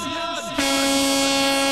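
Truck air horn blaring during a honking procession in Chapecó: a loud, rich, sustained blast kicks in over an earlier tone and holds steady to the end.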